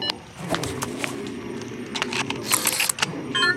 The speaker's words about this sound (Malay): Tuan, rakam aktiviti mereka guna kamera Cik Sarah.